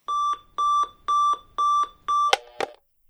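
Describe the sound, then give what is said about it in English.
A morning alarm clock going off: five short, evenly spaced high electronic beeps, followed by two sharp clicks. “Well, I have my alarm set to go off at like 6 or 7 in the morning, and”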